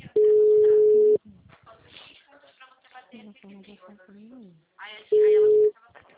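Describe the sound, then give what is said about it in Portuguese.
Telephone tones sound as a phone call drops: two long, steady, mid-pitched beeps, the first lasting about a second and the second shorter, with a person speaking in the gap between them. “Oi, seu Jefferson, a ligação tá caindo. Isso, Aí caiu.”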